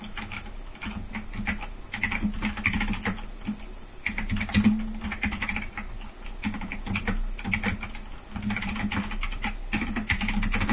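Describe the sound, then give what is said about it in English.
Typing on a computer keyboard to enter a chat message: many quick, irregular key clicks arrive in bursts with short pauses. The tapping is fairly soft and steady, with no voices. “here, I'm going to type it in IRC right now.”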